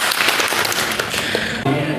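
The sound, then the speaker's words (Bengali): Loud applause breaks out from an audience at a team quiz contest after a correct answer. Dense, continuous clapping fills the whole stretch without a break. “একটা জোরে তালি হয়ে যাক”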